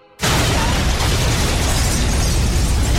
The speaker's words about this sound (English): Reese steps back as the blossoming explosion engulfs the car